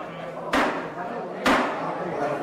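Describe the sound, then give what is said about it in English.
Two sharp knocks of a coffee mug slammed onto a table by a union chapter president to quiet retirees before a union meeting, spaced about a second apart over a steady murmur of voices. “That sound is the UMWA chapter president slamming a coffee mug on the table to quiet down the retirees and start the union meeting.”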